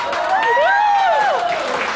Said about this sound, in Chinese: 鼓掌。